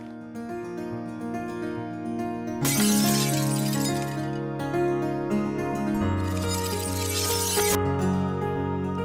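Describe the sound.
Glass shatters over a steady music bed, with two long, bright bursts of breaking and scattering shards, each lasting more than a second.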